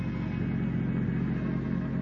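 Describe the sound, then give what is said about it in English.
A car engine rumbles steadily as the car drives onto a farm, a low, even drone that keeps a constant level with no voices heard. “I rejoined Constable Jed Bramler in the car and glanced over the paper as we drove onto the Bates farm.”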